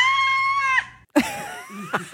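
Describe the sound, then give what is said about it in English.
A one-year-old baby girl screams at other babies as a greeting. A long, piercing, high-pitched shriek tails off, and after a brief pause comes a second, wavering squealing burst. “every time she sees another child or a baby, her way of greeting them sounds like this.”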